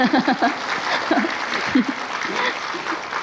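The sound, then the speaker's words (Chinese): Audience clapping during a spiritual talk by a master expounding scripture: scattered, uneven claps that come in a few loose bursts, with voices speaking among them. “拍手越多越好，气氛比较热，师父讲经更好”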